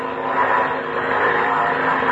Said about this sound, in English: So, you put the plane up on the air.